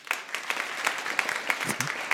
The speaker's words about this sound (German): Euer Applaus.